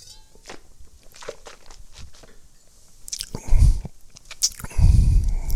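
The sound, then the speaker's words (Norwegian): Someone sipping Barbera red wine: a few quiet mouth and slurping sounds, then two louder, muffled gulping bursts. “Og litt sånn sjokolade, mokkaduft og Barbera er jo en veldig fruktig drue. Nå må jeg drikke litt her.”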